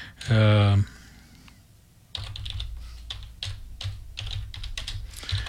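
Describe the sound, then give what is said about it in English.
Typing on a computer keyboard to enter an album name: brief talk, a pause, then a rapid, uneven run of key clicks that continues to the end. “Well, I typed this in here.”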